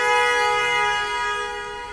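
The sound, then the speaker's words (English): A vehicle horn blares in traffic as one sustained, steady, buzzy note lasting about two seconds, with no voices. “Was that a strategic honk? I think so.”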